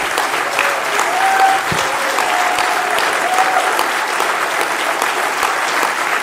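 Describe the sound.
An audience breaks into sustained applause, with dense, even clapping that holds at a steady loudness throughout and no clear voices over it.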